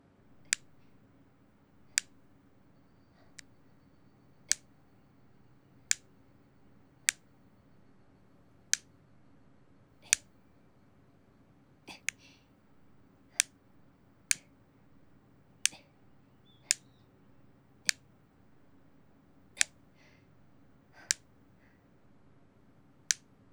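Nail clippers snip a boy's hard fingernails in many crisp, sharp clicks, each one brief and bright and spaced at a fairly steady unhurried pace over a quiet, faint background hum.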